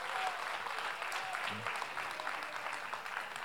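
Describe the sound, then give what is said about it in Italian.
An audience applauds an assistant at a Sunday church gathering. The clapping is soft and continuous, a dense, even patter with no clear pauses from start to finish. “facciamolo più forte l'applauso ad Antonio.”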